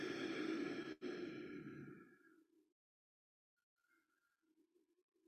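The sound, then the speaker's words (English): A single deep breath in a guided heart-focused breathing exercise, heard as a long, breathy exhale that fades over about two seconds, followed by faint soft sounds. “And see if you can take three full deep breaths.”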